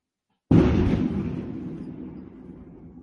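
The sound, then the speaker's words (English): A single sharp thunderclap that sounds like a cannon firing bursts out of silence as one loud, deep boom, then rumbles away gradually over the next few seconds. “Did you hear that cannon? That was thunder. It sounded like a cannon went off.”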